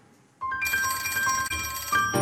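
A telephone rings as a call is placed to a member of parliament: a sustained electronic ring with a steady tone that holds for nearly two seconds, with a brief break partway through.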